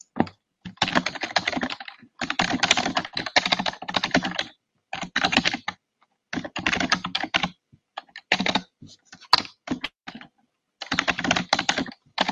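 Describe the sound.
Rapid clicking of keys on a computer keyboard, typed in several quick bursts separated by short pauses, with no voices.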